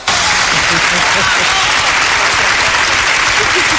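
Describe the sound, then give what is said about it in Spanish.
Loud, steady applause from an audience at a live celebration, a dense wash of many hands clapping that holds without a break for the full few seconds. “¡Aplauso!”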